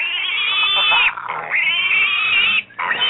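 Pig sound effect: high, nasal squealing held in a few long, drawn-out cries with brief breaks between them, loud and with no talk.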